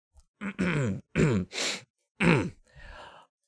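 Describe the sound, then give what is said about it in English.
Someone clears their throat in a few short, gruff voiced bursts, followed by a softer breathy exhale, with no other sound around them. “Oh, I see why you cleared your throat there.”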